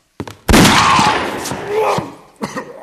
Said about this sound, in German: Der Kerl hat mir in die Brust geschossen!